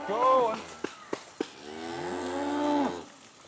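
Cattle kept on pasture year-round moo in two long, deep, loud calls, separated by three sharp clicks.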